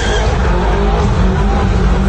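A car engine roars loudly and steadily, with a strained, high-revving tone that holds throughout.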